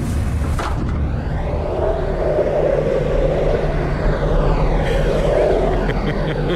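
Drone of an aircraft with two propellers: a loud, continuous rumbling hum with a whirring tone layered on top, holding steady throughout.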